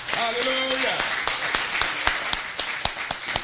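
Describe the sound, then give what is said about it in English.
A church audience clapping hands. A voice is heard briefly at the start, then sharp claps ring out at an uneven pace, several louder strikes standing out. “I know some of you even clapping your hands, amen.”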